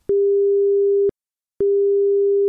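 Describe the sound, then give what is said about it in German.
A steady mid-pitched test tone sounds in two separate bursts, each about one second long with a click at its start and end and a short silence between them. The channels alternate by a tiny time offset at equal loudness. “Der Ton kam einmal von links, einmal von rechts, nicht wahr?”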